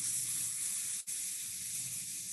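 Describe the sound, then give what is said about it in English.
A person hisses like a snake while breathing out, holding a long, steady breathy "S" with one brief break partway through. No speech. “when you breathe out, on the next breath out, make a sound of a snake.”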